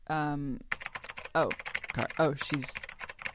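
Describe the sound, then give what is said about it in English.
Typing on a computer keyboard, quick irregular clicks and taps mixed with voices. “She's too busy typing. She has the headphones on. She's too busy typing.”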